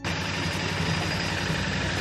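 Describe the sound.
A 650cc Enfield motorcycle engine runs after being washed, following trouble starting that was blamed on its sensors. It makes a steady, continuous, even idling rumble throughout, with no talk.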